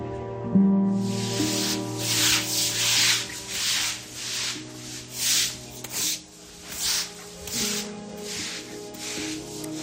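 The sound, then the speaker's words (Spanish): Brushes and shovels scrape mud during flood cleanup, producing a series of rasping, uneven strokes that swell and fade, with a low steady hum beneath. “Este que escuchas es uno de los sonidos que más oímos cada vez que visitamos alguna de las zonas afectadas, el de los cepillos y las palas limpiando el barro”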